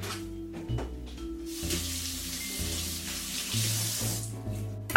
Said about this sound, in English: celery can kind of just hold a lot of dirt in the in-between layer, so I'm gonna give that a quick rinse.